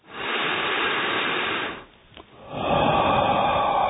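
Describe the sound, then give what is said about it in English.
A long, slow exhale pushed out through the mouth with a little force during a meditation breathing exercise. Two steady, breathy rushes of air are separated by a short pause. “Exhale from the mouth, long, kind of little, with a little force.”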